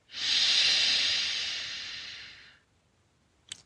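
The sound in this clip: A single long, deep breath of mountain air during a guided relaxation: a soft, breathy hiss that swells quickly, holds, and slowly fades over about two and a half seconds, followed by a faint click.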